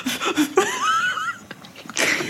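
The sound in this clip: A person blows air onto a still-blank instant photo print: a few breathy bursts of hiss, one carrying a thin, wavering whistle-like tone.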